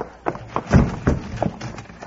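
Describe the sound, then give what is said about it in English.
A ridden horse gallops down a street, its hooves landing in quick, rhythmic, fairly loud thuds. “it's Pop riding down the street bent for leather. The way he's leaning in that saddle, looks like he's been hit.”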